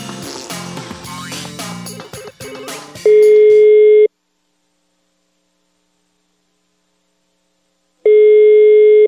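Telephone line tone after a call is redialed: two long, steady, loud beeps at one fixed pitch, separated by several seconds of silence, following a short burst of music.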